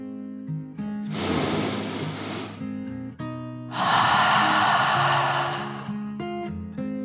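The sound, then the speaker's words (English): A deep breath drawn in and slowly let out: two long, airy whooshes of about two seconds each, separated by a short pause, over soft, sustained musical tones. “took one last deep dragon breath, in and out.”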